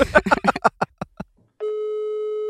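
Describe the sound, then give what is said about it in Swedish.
A telephone ringing tone on an outgoing call: a few short, choppy bursts of sound give way to a steady, even electronic tone that holds to the end. “Nu ska jag ringa.”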